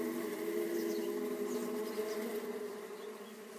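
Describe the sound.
A swarm of bees buzzes in flight, a dense, steady droning hum of many wings that holds evenly and fades slightly toward the end.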